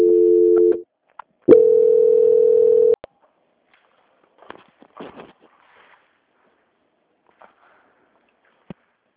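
A telephone transfer tone on a bank call: a short steady electronic tone, a brief gap, then a longer, louder held tone of about a second and a half. A quiet line with a few faint scattered clicks follows.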